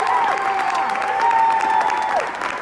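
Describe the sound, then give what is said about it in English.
Cheering and applause in the New York legislative chamber as a bill adding abortion to the state constitution passes: a continuous wash of clapping and crowd noise with brief swells, holding steady before easing slightly at the end. “That is the sound of people cheering for adding abortion to the New York Constitution”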